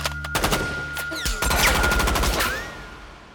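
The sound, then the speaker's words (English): A lightweight submachine gun, a Tommy gun, fires .45 caliber rounds in loud, rapid automatic bursts, with a steady high whine and whistling sweeps running alongside the fire. “The lightweight weapon can unleash 100 rounds of .45 caliber ammunition in less than 10 seconds.”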